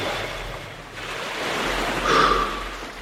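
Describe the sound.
Waves lapping in a harbour full of ships: a steady, hissing wash of water that swells a little louder near the end.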